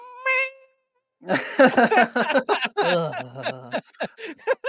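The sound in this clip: A voice imitates the call of a chicken frog, starting with a short squeaky pitched call, then a run of choppy, croaking vocal bursts mixed with chuckling.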